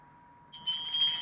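A bell rings out once after a short near-silence, its bright, high metallic tones sustaining steadily to the end.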